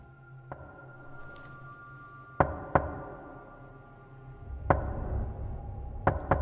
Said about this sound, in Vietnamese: Không có tiếng giả nhời, nhưng tiếng gõ cửa vẫn cứ đều đều vang lên.